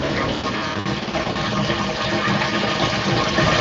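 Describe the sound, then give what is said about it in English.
A washing machine drains water with a loud, steady rushing and gurgling that holds at an even level throughout, with no pauses. “Sorry, that's my washer again. Oh no. God, that's so I know, loud. I'll go turn it off again. I thought I paused it.”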